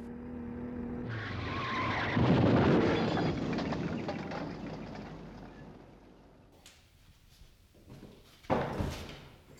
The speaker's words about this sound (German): Wissen Sie, Herr Professor, was eben passiert ist? Ist mein Mann beim Einpacken gegen die Laterne gefahren.